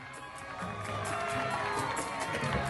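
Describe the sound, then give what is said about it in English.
Neighbours cheering and applauding outside an apartment building in Queens as a taxi pulls up. A faint, continuous crowd murmur of cheers and voices swells slightly toward the end. “Back in Queens, Charlie and Muriel's neighbors are applauding them. They pull up in a taxi outside their apartment building.”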